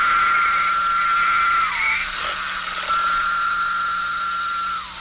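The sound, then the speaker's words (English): Seventeen-year periodical cicadas singing in a chorus, a loud, continuous high droning whine with sustained tones that slide downward as the calls end. “17-year cicadas. And they're back from New York in the Northeast through Illinois in the Midwest to Georgia in the Southeast, emerging in the billions”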